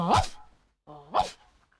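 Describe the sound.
A dog barks a greeting, two short, separate barks, each bright and rising in pitch before breaking into a burst, with a brief pause between them.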